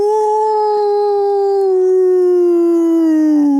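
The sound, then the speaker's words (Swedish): A person imitates a wolf howl with one long, loud, sustained wail that holds its pitch and then slowly sinks toward the end. “Kan få en smakprov på dina topp tre djurimitationer? Ja, men då tar jag, alltså varg är ju inte så svårt.”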